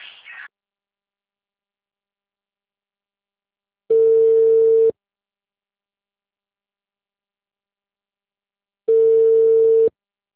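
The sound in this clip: Ringback tone of an outgoing telephone call: two steady, low-pitched tone bursts about a second long, separated by several seconds of silence, with a short faint noise at the very start.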